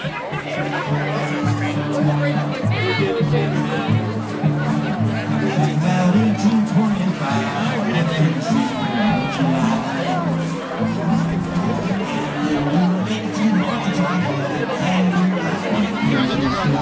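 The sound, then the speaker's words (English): A crowd at Carbondale's 2022 Potato Days festival: a steady babble of many overlapping voices chatters without pause throughout, with no single voice standing out. “Sounds from Carbondale's 2022 Potato Days.”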